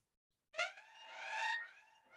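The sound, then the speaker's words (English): An alarm sound effect: a sustained, wavering electronic tone with bright harmonics. It starts abruptly, swells, then eases off, sounding alone for about a second and a half. “He's about to trigger the plot alarm.”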